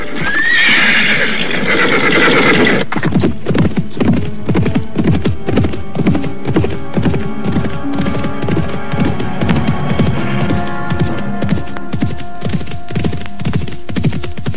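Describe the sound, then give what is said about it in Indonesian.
Horses galloping along a path, many rapid, even hoofbeats in a steady driving rhythm, with a high whinny near the start. “Kita percepat saja lari kuda ini, Paman.”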